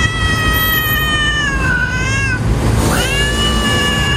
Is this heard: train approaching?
no